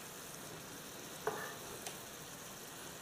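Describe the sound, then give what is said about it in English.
Beef searing in a pan with a splash of Worcestershire sauce gives off a faint, steady sizzle, broken by a couple of brief soft clicks. “I just want to get a little sear on this beef, which is starting to happen as we speak. You can see it.”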